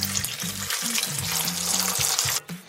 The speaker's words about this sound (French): Je vais recouvrir d'eau.